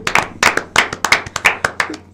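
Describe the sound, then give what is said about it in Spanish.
Sharp, loud handclaps from a small group, about a dozen crisp claps in a quick, uneven rhythm, each ringing briefly, with no voices. “Lo primero que hay que hacer es dar un aplauso a este chico de 16 años.”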